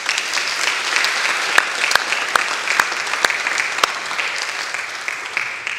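A church audience at St. Mark gives a visiting pastor a warm welcome with steady, continuous applause, full and even throughout, with a few sharp individual claps standing out.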